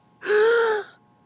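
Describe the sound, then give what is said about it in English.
A sharp, voiced inhaled gasp from a flustered man told to take a breath: one short intake lasting about half a second, loud and alone against silence. “I need you to take a breath.”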